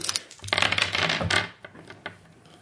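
Dice being rolled: a dense burst of rattling clatter lasting about a second, then a few scattered fainter clicks as they settle.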